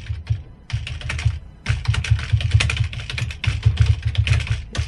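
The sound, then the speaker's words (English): Typing on a computer keyboard: quick clattering keystrokes in several bursts, separated by a few short pauses. “Let me just type to them real quick.”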